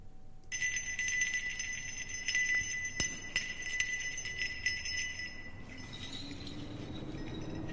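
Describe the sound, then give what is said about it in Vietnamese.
A hand bell rung during a ritual by someone sitting cross-legged on a mat before a chicken coop: a continuous bright, shimmering jingle of high metallic tones for about five seconds, then dropping away to a low murmur. “Thím căn dặn một lượt rồi bắt đầu nhắm nghiền mắt rung chuông. Tiếng chuông leng ca leng keng vang lên.”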